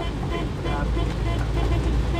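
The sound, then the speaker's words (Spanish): A boat moves through the flooded streets of Machala, making a steady, unbroken rumble with a low hum and rushing, surf-like water noise that holds at an even loudness throughout. “Esto es una locura. lo que estamos haciendo es una locura. Esto es un bote que estamos pasando por las calles de Machala.”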